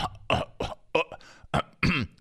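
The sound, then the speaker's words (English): A man repeatedly clears his throat in a quick, uneven series of short, rasping bursts separated by brief pauses, fairly faint and with no speech between them. “the constant and multiple throat clears are absolutely incredible”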